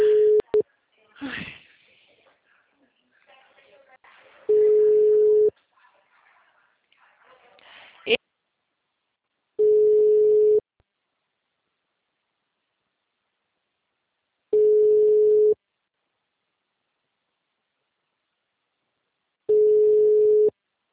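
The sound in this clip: Telephone line tone after a dropped call: four steady beeps at one pitch, each about a second long and spaced about five seconds apart. Brief speech and rustling come before the first beep.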